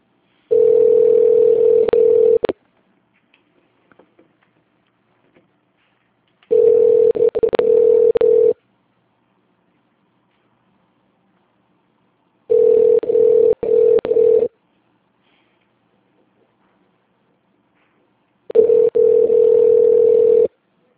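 A telephone ringback tone sounds while a call to a company line connects: four steady, evenly pitched rings, each about two seconds long, separated by long silent gaps.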